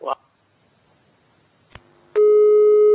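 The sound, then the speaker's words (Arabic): Telephone busy tone after a call disconnects: a brief click, then a loud, steady electronic tone that starts suddenly and holds unbroken to the end. “طيب انقطع الاتصال.”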